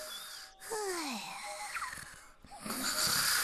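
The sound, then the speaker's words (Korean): Cartoon-style snoring stands for a napping rabbit in a children's story. Whistling tones bend up and down in pitch over a faint, breathy hiss. “어느 날 토끼가 쿨쿨 낮잠을 자고 있었어요.”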